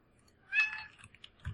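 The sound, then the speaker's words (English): A single faint meow from a cat, a short, high cry that fades out, followed by a few soft, scattered noises. “Kitty!”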